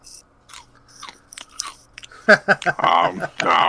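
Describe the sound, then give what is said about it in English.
Crisp crunching of Chex Mix being eaten, a scatter of small crackly bites followed by people talking over louder chewing. “Play my Lemmings game. Your Lemmings game? Yeah. And eat Chex Mix. And eat Chex. Hold on.”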